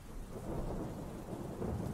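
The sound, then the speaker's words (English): Steady rain falling on a rainy day at a scrapyard, with low rumbling thunder beneath a continuous dense hiss that stays fairly even and swells slightly toward the end. “The rain seemed to have picked up since I was last outside”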